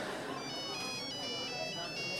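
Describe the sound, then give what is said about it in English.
A Nokia flip phone ringtone goes off during a meal. Its faint electronic melody steps between high, pure tones above steady background noise. “As we ate, my Nokia flip phone started ringing.”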